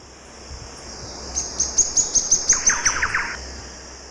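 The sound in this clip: Thrush-like wren song: a rapid run of many bright, high, evenly spaced notes with a lower rattling trill overlapping the later part, heard over steady background hiss with no voices.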